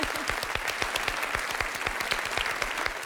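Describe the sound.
Audience applause during a quiz game show, many hands clapping briskly with individual sharp claps standing out from the dense, steady patter that continues at an even level across the whole clip.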